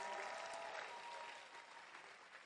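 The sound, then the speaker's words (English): A church audience claps hands in a quiet, dense wash of many overlapping claps that eases slightly toward the end, with no talk over it. “Then clap your hands for Jesus.”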